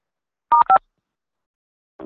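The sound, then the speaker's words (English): Two short electronic touch-tone keypad beeps in quick succession, keyed in to pick an option in an automated phone menu, clean and steady, followed by silence and a brief lower sound at the end. “If you are calling about an existing order or have a question about our ministry, please press 3 now.”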